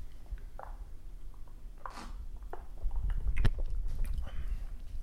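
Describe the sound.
A thick ice cube being chewed: a few sharp, crisp crunches stand out over soft mouth noises and a low, steady rumble, with the bites growing heavier toward the end.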